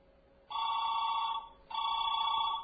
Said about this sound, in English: listen to what happens. Do you hear that? Two rings. Two quick rings.